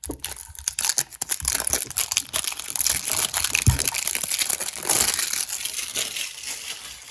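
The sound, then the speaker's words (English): Plastic shrink wrap crinkles, crackles and tears as it is pulled off a package. The crumpling runs continuously, with sharper ripping bursts throughout. “Oh, is this taped up? All right, I'm gonna have to cut the video really quick to get this untaped. Okay, it's not taped up, it's shrink wrapped.”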